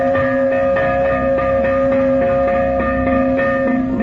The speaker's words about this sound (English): And when the fire bell sounded,